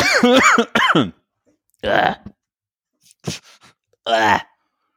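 Coughing and throat clearing after choking on something: a few rough, voiced bursts separated by short silences, the first pair close together, then three more spaced out.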